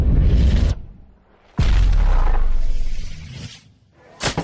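Gunshot bursts ring out as loud, booming blasts with long, rough decays. A first blast fades out, a second, stronger one sustains for nearly two seconds, and a short third burst comes at the end.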